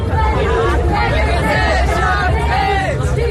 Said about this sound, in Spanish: Este es el sonido de una de las recientes protestas en Berlín por el aumento del precio de la vivienda